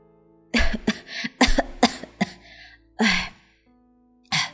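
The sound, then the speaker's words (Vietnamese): A woman who is feeling unwell after a miscarriage coughs into her hand: a quick cluster of short, hoarse coughs, then a couple of separate coughs after brief pauses, with no speech. “Quyên đưa tay lên miệng ho khụ khụ vài tiếng, rồi cô nói tiếp.”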